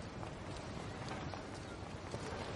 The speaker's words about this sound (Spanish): Un barco sale del puerto del pueblo compuesto por numerosas casas blancas.